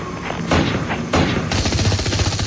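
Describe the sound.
Gunfire from robot men shooting at a pair fleeing on foot in a radio drama: loud, dense volleys of rattling shots that run almost continuously, with a few sharper bursts standing out.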